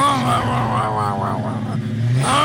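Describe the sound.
A voice imitates the loud engine of a jacked-up dually pickup truck, making a continuous, rumbling, revving vroom whose pitch wavers up and down throughout.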